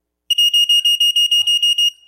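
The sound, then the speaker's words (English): A smoke detector sounds during a test. It gives a rapid run of many shrill, high-pitched electronic beeps at an even, quick rhythm, then stops abruptly. “We have this assumption that that the smoke detector is going to work. Do you ever test your assumptions?”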